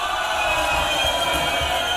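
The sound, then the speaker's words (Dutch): Crowd applause and cheering for a Dutch party band at a Radio Continu event, a loud, unbroken roar of clapping and shouts that stays steady from start to finish. “Jongens, even een applaus voor Kevin Terstra. Kom op. Namens Radio Continu een waanzinnig groot applaus.”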